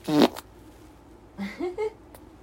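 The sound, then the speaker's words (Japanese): A fart recorded at home: one short, loud, low burst at the very start, then a stretch of quiet followed by a few brief, softer sounds. “じゃあおなら出そうなので撮ってきます”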